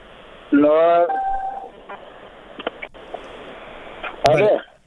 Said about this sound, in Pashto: خیر، پر حال ټیلیفون متاسفانه قطع کېږي.